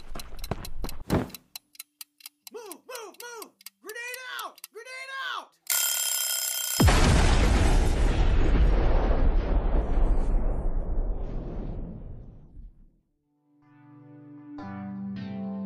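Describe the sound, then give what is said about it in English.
A grenade ticks with a few quick, sharp clicks, then detonates in a loud blast whose roar and crackle fade slowly over several seconds; short vocal sounds come before the explosion, and a quiet tonal passage follows it. “The grenade. Oh, right.”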